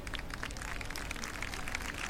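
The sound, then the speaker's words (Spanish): Crowd applause greeting a religious procession float of the Sacred Heart of Jesus carried by bearers. The clapping is a faint, dense patter that continues unbroken throughout. “Bueno, aplausos, porque la gente está, como decíamos, deseando ese encuentro que se produce y que levanta el aplauso y la alegría de la gente viendo al Sagrado Corazón”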